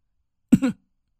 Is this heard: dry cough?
yes